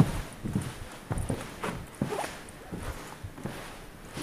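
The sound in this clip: Footsteps climb a staircase to an upper floor as a steady series of soft, evenly spaced thuds and scuffs, with no voices.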